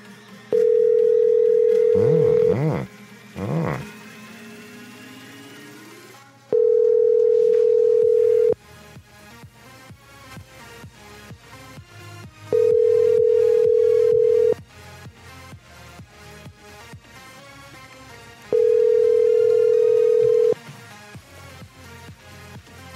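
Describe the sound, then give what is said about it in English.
A telephone call is dialed and rings: brief warbling dialing tones overlap the first of four steady, evenly spaced ring tones, each lasting about two seconds with longer quiet gaps between. “I don't know if I can use this phone number, but let's just try it.”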